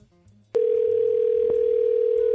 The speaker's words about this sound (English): Oh, okay, hold on. This person I need to call immediately.